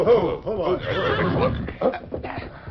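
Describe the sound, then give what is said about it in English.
A few loud horse whinnies ring out as three horsemen rein up their mounts, the shrill neighs rising and falling with a short pause before a final call. “Finally, the three horsemen reined up.”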